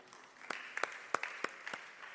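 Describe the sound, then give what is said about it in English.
Scattered, faint clapping from an audience at a church talk to pastors: a few sharp separate claps spaced irregularly over a low hush, rather than full applause. “Clap for yourself.”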